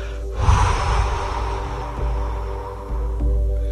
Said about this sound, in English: This time when you breathe out, I'm going to ask you really to blow it out. Just go like...